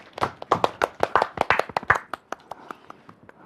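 Applause welcomes a young male dance student being invited to come out and perform: many quick, sharp claps in an uneven patter, loud at first, then thinning and fading over the last second or so.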